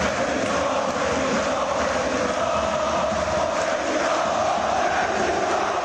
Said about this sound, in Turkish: Büyük ilgi gören kulübün Katarlı sahibi Nasser El Halifi başkan tezahüratlarıyla selamlandı.